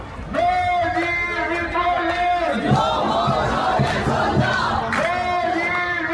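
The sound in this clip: Crowd chanting at an Iranian diaspora protest rally in Sweden backing Reza Pahlavi: loud, sustained unison voices with held tones, a looser, noisier stretch in the middle, then the chant resumes strongly near the end.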